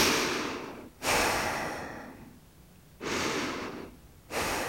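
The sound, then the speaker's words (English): Gentle breathing in and out through the nose during a breathing exercise: four soft, airy breaths, each swelling and then fading, with short quiet gaps between them. “Take a few gentle breaths in and out through your nose.”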